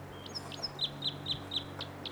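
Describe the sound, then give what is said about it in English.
A bird in a tree above a camp repeats short, high, thin chirps at a steady, even rhythm, fairly faint over a low background hum. “There's that bird again.”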